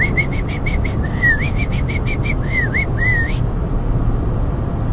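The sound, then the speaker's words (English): A person imitates bird calls near bushes: a rapid series of short, high chirps mixed with a few rising, swooping whistles, ending after about three seconds over constant broad background noise. “he starts making bird noises. He's like,”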